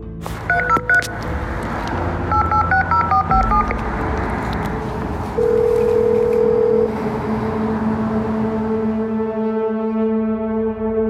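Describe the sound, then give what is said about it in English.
A call box keypad at a house entrance beeps as a code is dialed in a quick run of tones, followed by a long, steady held tone. “I reach the call box. I find the unit where Chris is staying, and I dial the code.”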